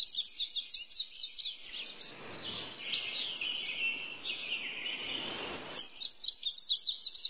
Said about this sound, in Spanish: Los sonidos de las aves.